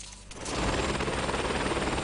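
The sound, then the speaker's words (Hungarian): Steady roar of a rescue helicopter flying cavers down from a mountain in northern Italy, swelling in after a brief quieter opening and holding loud and dense to the end. “Ezzel a helikopterrel hozták le a hegyről az utolsó négy magyar barlangászt.”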